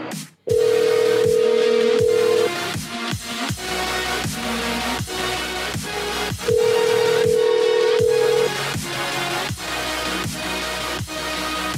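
Telephone tones from an unanswered call: two long, steady, mid-pitched beeps of about two seconds each, several seconds apart, over loud rhythmic percussive background music.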